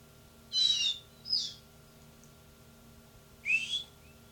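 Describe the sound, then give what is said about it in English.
Three short, shrill whistle blasts, high-pitched and fairly faint, with the first two close together and a long pause before the third; no voices. “My whistle.”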